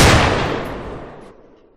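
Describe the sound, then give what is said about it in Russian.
A single loud gunshot from a Desert Eagle pistol: a sharp blast whose rumbling tail slowly decays over more than a second. “Грохот такой, что даже некроманты замирают на месте, не понимая, что за страшную магию я использовал. В вытянутой руке держу десертыгл.”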